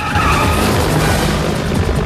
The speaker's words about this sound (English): Then when the chopper tries to lock the car in its sights, the Shagua brakes suddenly.